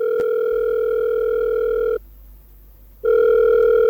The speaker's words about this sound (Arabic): الأستاذ الكاتب الكبير مصطفى محرم، هطلبه في التليفون.